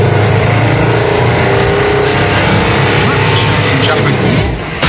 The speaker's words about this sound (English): The key to an air car is to keep everything lightweight so you get the best possible mileage. Let's give it a go.